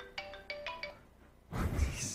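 Electronic phone ringtone of a few quick, fairly faint melodic beeps, followed after a short pause by a burst of louder muffled rumbling noise.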